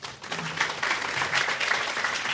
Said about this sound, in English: Let's give Professor Weimhuer a warm welcome.